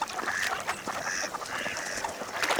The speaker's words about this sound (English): These baby geese, or goslings, are leaving the nest.